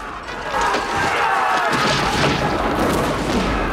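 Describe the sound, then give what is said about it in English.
Cannon fire rains down on soldiers sheltering among sand dunes, a heavy, continuous booming roar that stays loud for the whole clip. “Cannon fire continues to hail down around them as they dig in behind the bank.”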